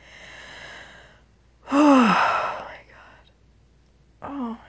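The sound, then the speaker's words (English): Heavy breathing from a person whose body is jumping and spasming in reaction: a few loud, breathy exhalations with a strained, moan-like voiced edge, one much stronger than the rest, separated by quieter gaps. “You can hear my breath.”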